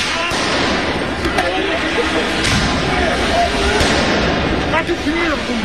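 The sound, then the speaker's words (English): Police firing tear gas to clear protesters in central Paris: several sharp, loud bangs burst out over a dense, continuous crowd roar, with voices audible throughout. “You can hear the sound of police firing tear gas to clear protesters.”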